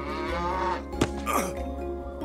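A newly acquired cow, about to be milked, gives a drawn-out, low harmonic moo with a wavering, bending tail, heard alone without talk.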